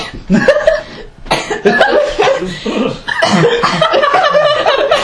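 Harsh coughing from someone who has just inhaled spit, a few loud bursts in quick succession with a short pause near the start, joined by voiced, laughter-like sounds.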